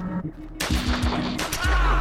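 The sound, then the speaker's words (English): Gunfire in a dramatized scene: shots fired from above ring out as a few sharp, loud bursts over a busy, noisy background. “Shots from above.”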